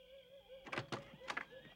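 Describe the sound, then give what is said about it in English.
Knocks on a door along a dark hallway: a few short, muffled thumps in two quick clusters, heard over a faint steady hum. “Later, Nachite walks through a dark hall and knocks on Dillon's door.”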